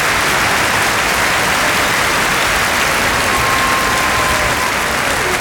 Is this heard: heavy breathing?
no